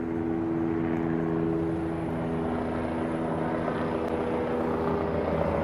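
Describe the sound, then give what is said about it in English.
Helicopter flying overhead near a river, a steady, loud droning of rotor and engine that holds even throughout, with no voices. “helicopter is flying over.”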